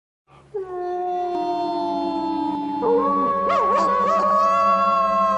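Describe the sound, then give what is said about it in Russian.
Wolves howl in a distant forest: several long, sustained howls overlap in layered tones, holding steady and then wavering and bending toward the end. “«Волки! Волки воют!» — закричал младший, а ныне единственный сын кузнеца. И верно, вдали в лесу завыли волки.”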